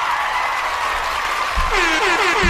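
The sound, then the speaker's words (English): A round of applause plays as a sound effect, a dense steady clatter of clapping throughout. A few short falling whistle tones join it near the end. “you know who else deserves a round of applause and a bomb drop?”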